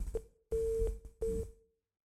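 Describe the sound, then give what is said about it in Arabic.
A busy tone sounds after a caller's phone call is cut off on a call-in line: a few steady mid-pitched beeps, separated by short gaps. “انقطع اتصال الاخ صالح”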